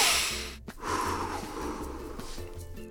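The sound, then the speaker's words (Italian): A deep breath drawn in through the nose during a guided relaxation exercise: a sustained, airy rush with a short break early on, fairly soft and unaccompanied by talk. “Adesso fate un altro respiro profondo,”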